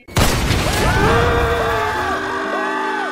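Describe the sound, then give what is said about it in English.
A video game rocket launcher fires with an abrupt, loud blast, followed by a sustained whooshing roar layered with swooping tonal sweeps. “that's a rocket launcher? Yes.”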